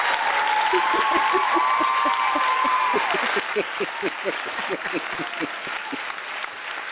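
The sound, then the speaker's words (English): Dense, steady applause from a studio audience, loud and continuous through the first half, then thinning into more scattered, distinct claps toward the end. “You get the in studio audience too. You hear that?”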